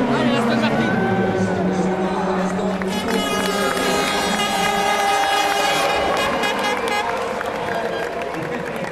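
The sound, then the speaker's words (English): Aston Martin and Lola race cars pass near the end of a race before a large crowd. Their loud, sustained, high engine notes blend together under a voice talking over them. “There go the Aston Martins. And the Lola, or one of the Lolas.”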